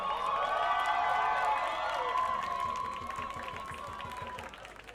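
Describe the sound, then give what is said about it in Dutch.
Crowd applause and cheering at an anti-racism, anti-fascism demonstration, with loud clapping and raised voices that gradually ease off toward the end. “Mag ik een applaus voor Laleh Almanjani?”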